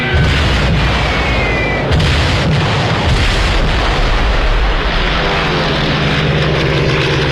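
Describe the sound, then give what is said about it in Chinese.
A Stuka dive bomber fitted with a siren, diving toward a target: a loud, continuous roaring engine drone with a thin rising whine, booming dips and rumbling impacts underneath, with no voices. “斯图卡式俯冲轰炸机装备有警报器，训练有素的飞行员在下降过程中必须忍受住高压，并在最后一刻向目标精确投放炸弹。”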